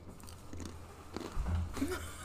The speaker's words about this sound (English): You hear that? I'm so sorry if you can hear that. I'm eating again. Yeah, we're eating pretzels this time.